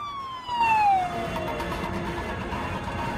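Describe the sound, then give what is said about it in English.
A police car with its siren on passes through city streets. The wailing tone swells as it goes by, then slides steadily downward in pitch as it moves away, over a constant bed of traffic rumble. “A police car going the other way passes them.”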